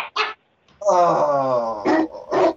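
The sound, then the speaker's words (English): A dog gives a drawn-out, whining vocal cry, harmonic and steady for about a second, set between short bursts of human voice. People talk around it. “Now his dog's coming at me. Fuck off, dog! That's a nice dog.”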